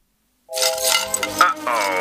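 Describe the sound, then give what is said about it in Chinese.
Snail shell cracking and breaking as a cartoon-style ad effect: a sudden brittle crunch after silence, followed by clinking, rattling fragments, with a voice mixed in. “看你干的好事，你又打破你家蜗牛的壳了。”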